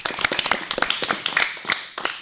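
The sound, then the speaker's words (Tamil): Scattered clapping from an audience at a school program, many sharp, uneven claps in an irregular rhythm rather than a steady roar, some louder hits standing out among softer ones. “வாழ்த்துக்களும் பாராட்டுகளும். எல்லாரும் clap பண்ணுங்க.”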